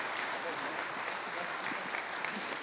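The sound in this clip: Audience applause welcomes a guest speaker at a church service, a steady, even wash of many hands clapping that holds at a constant level throughout.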